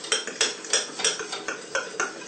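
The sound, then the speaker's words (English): A fork stirring a lumpy mixture in water to smooth it out, making steady, rhythmic scraping and clinking strokes against the bowl. “So you have to keep stirring this now because you can get a lot of lumps in it if you don't keep stirring it”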